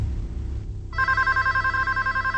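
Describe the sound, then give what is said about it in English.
A telephone rings in an apartment: after a short noisy lead-in, a loud electronic warbling ring starts just under a second in and pulses rapidly and evenly to the end. “The phone rings at Gary's apartment.”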